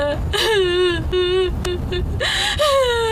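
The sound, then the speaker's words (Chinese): A person cries in mourning with drawn-out, quavering wails and sharp gasping breaths between them, loud and emotional, with the pitch sliding down at the end of each wail. “再哭，也哭不过来啊！啊，别哭了啊！”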